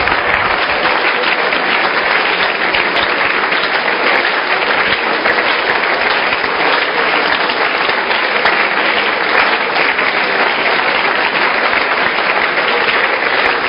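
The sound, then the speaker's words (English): An audience claps their hands during a sermon, the applause loud, dense and unbroken at an even level for the whole stretch. “Clap your hands and make a declaration about your life.”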